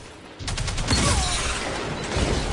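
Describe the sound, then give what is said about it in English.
Sniper rifle gunfire in a video game during a zone-capture match: a dense, continuous rush of loud noisy blasts and action sound that sets in abruptly after a short quiet moment and holds steady to the end. “All right, so that was a look at the sniper rifle.”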